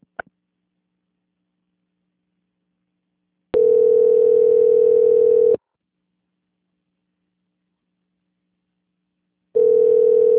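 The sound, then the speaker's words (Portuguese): Telephone ringback tones play during a call transfer on a loan-portability call: after a tiny click and a long silence, a steady mid-pitched tone sounds for about two seconds, then silence again before the tone returns. “A ligação ela vai ficar muda por alguns instantes, mas, por gentileza, não encerre o contato, permaneça em linha, tá bom? Tá bom. Transferência.”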